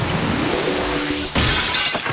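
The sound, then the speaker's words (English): Glass shattering with a sharp, bright crash, used as the sound of a scary intruder breaking in. A crackling, noisy wash is followed by a hard break and glittery fragments trailing off, with no voices. “That sounds to me like the broken glass from a really scary intruder.”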